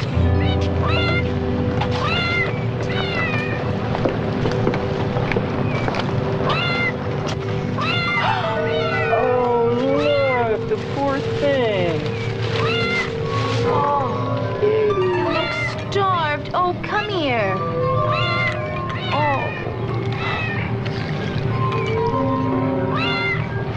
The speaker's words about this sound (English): Genetic laboratory. This must be a lab animal. Must have gotten away. You mean they're gonna cut it up and experiment on it? No, not necessarily. But sometimes it is vital to... No way! Not with this cat.